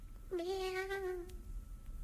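A single kitten meow, a clear mid-pitched tone that holds fairly level for about a second over a faint low background hum.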